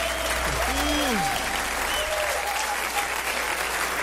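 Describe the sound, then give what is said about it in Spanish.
Applause for the Lord at a worship service: loud, dense clapping runs unbroken from start to end, with a few raised voices or cheers rising above it early on. “dale mais forte esse aplauso ao Senhor”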